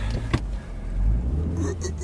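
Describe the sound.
A car driving off, with a steady low engine rumble that swells slightly midway, a brief knock early on and a faint whirring above it.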